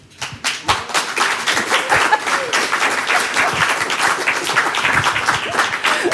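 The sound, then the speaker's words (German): Audience applause welcomes a guest at a live radio event: dense, steady clapping from many hands that rises quickly at the start and holds at an even level throughout. “Ich bitte Sie um einen herzlichen Willkommensapplaus.”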